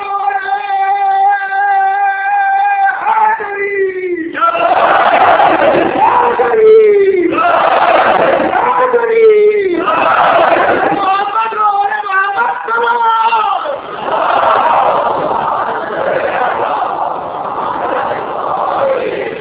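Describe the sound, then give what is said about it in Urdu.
An audience at a religious gathering chanting a slogan: a single voice calls out, then many voices shout back loudly in unison, repeating over several call-and-response rounds. “جی اب نعرہ لگا سکتے ہیں.”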